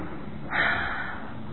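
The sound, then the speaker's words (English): A seated group holding hands takes a very deep breath together, a soft airy swell that rises briefly and then eases back into a low, steady hush. “Now please take the hand of the person who's seated next to you. Together we all take a very deep breath.”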